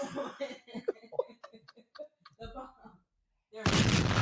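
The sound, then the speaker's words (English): A bomb explosion sound effect cuts in after people talk and laugh, a sudden loud roar of broad noise that fills the last half second. “Hold on, let's drop a bomb. Which one's the bomb?”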